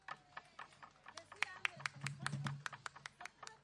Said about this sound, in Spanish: aplauso para los bailarines.